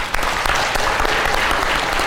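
Audience applause at a business panel event, a dense, steady wash of clapping that holds at an even loudness for about two seconds, with no voices over it.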